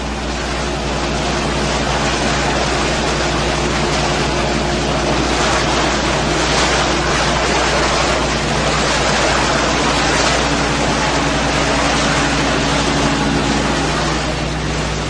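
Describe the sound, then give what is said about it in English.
Inflatable dinghies cross open water toward an icebreaker, their motors and the rushing water merging into a steady, loud, unbroken roar with no pause or change. “Out on the water, three inflatable dinghies ferry the women and children to the icebreaker.”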